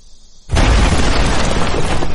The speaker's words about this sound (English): That was the bomb that still makes Kent jump.